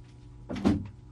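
An office door being closed, one short, soft swishing thud with no voices.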